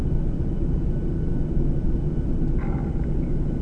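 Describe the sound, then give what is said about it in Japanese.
Air China airliner cabin noise after landing at Beijing Capital International Airport Terminal 3: a dense, steady low rumble and hiss throughout, with a brief faint tonal sound near the end. “皆様、当機は北京首都国際空港第3ターミナルに着陸いたしました。”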